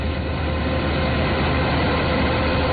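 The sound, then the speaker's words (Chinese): A combine harvester working at full power in a golden corn field in Shanxi, with transport vehicles following behind, gives a dense, steady mechanical roar that stays loud and unbroken throughout, with no voices. “走进山西大同市云冈区西韩岭乡泰善村，连片玉米田里满目金黄，收割机正开足马力作业，转运车辆紧随其后，将刚收获的玉米及时运往收储点。”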